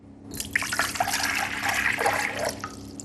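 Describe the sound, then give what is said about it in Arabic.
Cold water is poured into a cup in one steady, splashing, gurgling stream lasting nearly three seconds, heard alone without voices. “أولا أسكب الماء البارد، فقد أصغ جيدا.”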